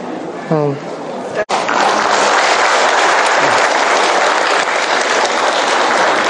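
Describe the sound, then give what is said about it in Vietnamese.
Applause from an audience at a Buddhist temple gathering as a nun is invited up, a dense, steady clapping that starts after a brief voice and runs continuously to the end. “Mời cô Pháp Tịnh lên đây, vỗ tay cho cô lên nè.”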